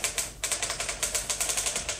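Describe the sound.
A typewriter clatters as a dictated letter is typed, its keys striking in a quick, steady run of many crisp clacks with one brief pause near the start.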